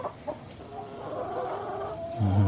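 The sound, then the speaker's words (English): Chickens clucking on a farm: a couple of short, sharp clucks at the start, then a longer wavering cackle that carries on steadily without any talk. “That's a chicken. Oh. No, that's chickens again, isn't it?”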